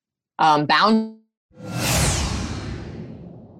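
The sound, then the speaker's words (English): A swoosh sound effect, a broad rushing sweep that swells quickly and then slowly fades, preceded by a short voiced sound. “How are you liking that swoosh sound, Heartlifters?”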